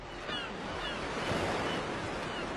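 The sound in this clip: Sea waves roll in as a steady, full wash of surf with a breezy hiss, alone and without voices.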